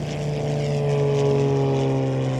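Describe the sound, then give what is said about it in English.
Propellers on the wings of a light aircraft turning in Louisiana woodland at night, a steady droning engine hum with strong low tonal harmonics that grows slightly louder. “Louisiana woodland, the propellers start to turn on the wings of a light aircraft until they're blurred into one”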